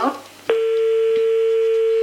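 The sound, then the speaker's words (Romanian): A telephone line tone sounds after a caller's phone-in call drops. A brief snatch of voice comes first, then one steady, unbroken mid-pitched tone holds at even loudness to the end. “S-a întrerupt apelul ascultătoarei noastre.”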